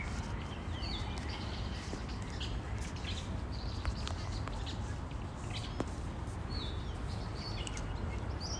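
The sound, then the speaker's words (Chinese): Faint chirps from an escaped caged hwamei thrush perched in a cherry tree, a few short high calls scattered over a steady outdoor background hiss. “笼养的逃出来的。现在它飞到了一棵樱花树上，听，这是它的声音。”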